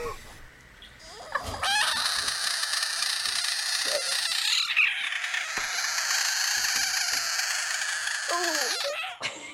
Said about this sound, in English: The frog is really ugly. But that sound is like, for some reason, I find really cute.